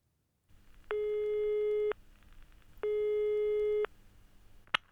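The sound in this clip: Telephone busy signal on a German phone line: two long, steady electronic tones, each lasting about a second with a pause between them, followed by a brief sharp click at the end.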